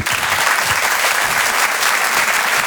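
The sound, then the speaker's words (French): Applause from the audience at a comedy club, a thick, continuous roar of clapping held at a strong, even level from start to finish. “Vous pouvez l'applaudir très très fort, il s'appelle Rodrigue. Merci, merci. Bravo Rodrigue.”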